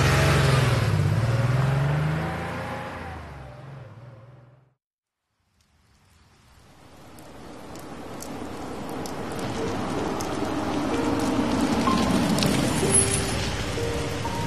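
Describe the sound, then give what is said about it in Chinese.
A car engine starts and the car drives off in the rain. An earlier noise fades into a few seconds of silence, then the engine grows and runs steadily under a constant hiss of rain. “没有片刻的迟疑，就钻进了驾驶室。车子又一次启动了。”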